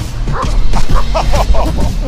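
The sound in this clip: A trained dog barks during a fast chase, letting out many loud, excited barks and yips in quick succession, with voices faintly underneath.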